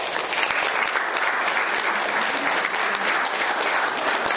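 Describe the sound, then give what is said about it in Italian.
Audience applause at a book presentation: dense, steady clapping from many hands, holding at an even loudness for the whole few seconds without a break, with no voices standing out. “Pertanto un applauso per Pinuccia.”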